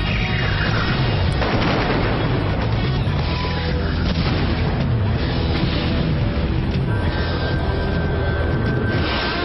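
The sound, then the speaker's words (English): Missile explosions in an animated video trailer's soundtrack make a loud, unbroken roar of booming blasts and rumble that holds dense and heavy throughout, with no talk. “they even have missiles.”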